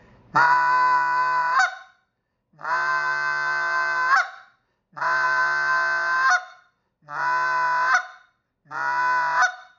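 A goose call blown by a hand caller, imitating goose honking. It gives five long, loud, nasal honks with even gaps between them and no voices over them.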